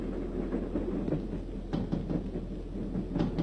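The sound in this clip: A military train speeding past at night: a heavy, low rumbling drone with irregular knocks and clattering thumps scattered through it. No voices.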